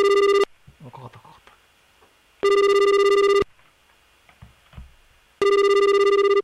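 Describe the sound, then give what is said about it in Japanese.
A telephone call rings in three loud, steady bursts of electronic tone, separated by gaps with faint, scattered background sounds. “じゃあ早速電話 しましょう。”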